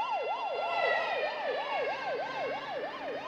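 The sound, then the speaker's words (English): Siren of a police car and an ambulance speeding past on a wide main road, a fast wail that rises and falls in rapid, regular cycles, loud and steady with no voices. “He steps into the shaded doorway of a building while a police car speeds past, followed by an ambulance.”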